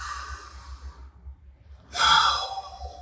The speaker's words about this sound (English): So we've done a little cleansing breath there.